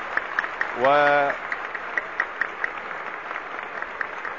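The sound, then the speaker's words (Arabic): Concert audience applause greeting Umm Kulthum as the curtain opens, a dense, steady crackle of many hands clapping that runs through the whole stretch at an even level. “ويقابل جمهور الحاضرين هنا كوكب الشرق بهذه العاصفة من التصفيق وهذه التحية”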